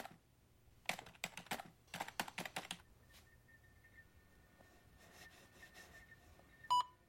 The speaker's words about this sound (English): Searching the database, he taps on his keyboard.